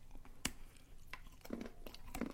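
Chewing on a vegan chocolate bar with sea salt and almonds: faint, crunchy bites and soft mouth sounds come in a few irregular bursts.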